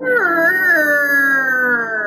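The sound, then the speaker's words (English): A long, loud wailing cry rises as a rotting wooden door of a two-story townhouse opens. The wail holds as one unbroken tonal cry that dips near the start, then sinks slowly in pitch. “creaks open, and the sound of the wailing amplifies.”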